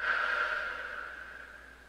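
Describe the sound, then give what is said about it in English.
Soft breathing during a guided relaxation exercise: a single faint, airy breath that trails off gradually. “Breathe in through your nose. Out through your mouth.”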